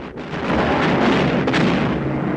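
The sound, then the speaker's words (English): A deep, rumbling explosion as cans of nitroglycerine drop onto a bridge and the structure collapses into smoke and rubble; a dense, loud roar holds steady for the whole stretch, with no voices. “Jim pulls to release the cans of nitroglycerine, which fall onto the far end of the bridge, causing the whole structure to collapse to the ground in a cloud of smoke and rubble.”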